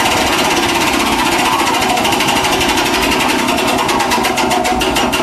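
A prize wheel spinning makes a continuous, loud, rapid ratcheting clatter of dense repeated clicks that holds steady across the whole stretch, with no talk.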